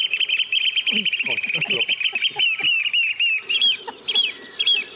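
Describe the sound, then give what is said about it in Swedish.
Eurasian oystercatcher display call played from a recording: shrill, rapid, high piping notes run in excited trills throughout, while people talk over it at a lower pitch. “Nu spelar jag strandskatan. Aha, den har man ju hört. Ja. Det här är spellätet.”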